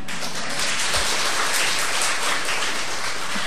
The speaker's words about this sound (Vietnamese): Không biết vỗ tay là vì cái gì? Vì lấy lòng sư hay là vì cái gì?